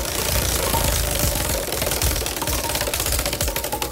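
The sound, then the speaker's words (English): A digital prize wheel spins, giving off a long run of rapid, dry ticking clicks like a typewriter. The clicks stay dense and loud throughout, with no voices over them. “we're going to spin and see what it lands on for you, okay? Okay. Okay, here we go. My digital wheel of resolution.”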